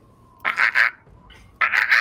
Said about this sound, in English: It squawks at you and begins to squiggle its way, trying to reach you from there.